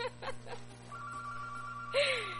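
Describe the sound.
A telephone rings during a radio call-in show, a steady electronic tone held for about a second after a brief voice, followed by a short, brighter burst of sound.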